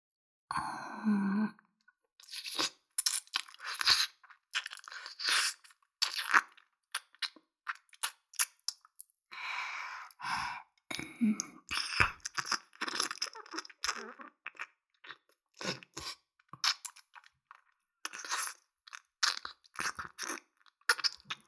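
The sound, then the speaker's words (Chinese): Close ASMR ear licking, made of wet mouth sounds: many soft smacks and clicks in uneven bursts, with brief quiet pauses between them. “差不多该换另一边耳朵了。这边也要舔了。”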